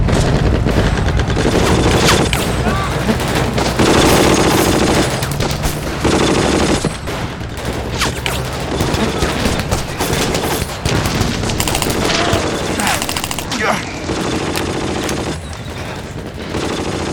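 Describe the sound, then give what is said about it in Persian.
Machine gun fire rattles in sustained dense bursts, mixed with heavy booms. The gunfire stays loud almost without pause throughout, with only a few short breaks. “برو مسلسلش شلیک کنن.”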